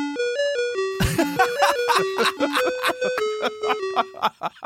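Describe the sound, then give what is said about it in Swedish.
A Hemglass ice cream van plays its jingle outside a church. Bright, bell-like chime notes run through a cheerful melody at a steady pace, loud and alone. “Då kom hemglassbilen precis utanför kyrkan.”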